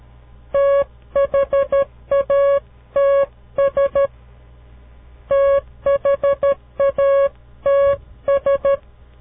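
Morse code spelling the word that's: many crisp, mid-pitched electronic beeps in short dots and longer dashes, clustered into letter groups separated by pauses, over a faint low hum with no voices.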